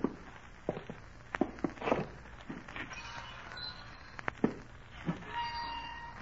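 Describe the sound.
Light footsteps walk out toward a porch, a few faint, uneven steps and soft knocks over a quiet hiss.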